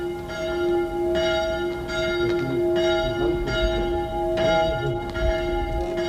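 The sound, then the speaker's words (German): A small church bell rings on the village square of Meolo in Italy. Repeated bright, ringing strokes come at a steady rhythm, each ringing on over a low background hum, with no voices. “Diese kleine Glocke hörte ich, als ich über die Piazza in Meolo ging, hinüber zum Albergo, dem einzigen Gasthaus in Meolo.”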